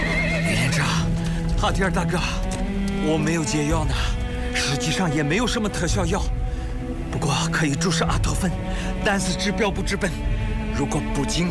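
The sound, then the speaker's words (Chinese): Horses at a Zhaosu horse ranch, crazed after eating poisonous drunken horse grass, neigh and fight: many loud, repeated whinnies rise and fall over constant commotion, with people talking throughout. “哎，那几匹马疯掉了，在打架呢。”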